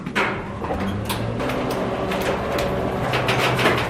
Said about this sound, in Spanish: Me dirijo al ascensor. Abriendo puertas. Subo a la 6ª planta. Cerrando puertas.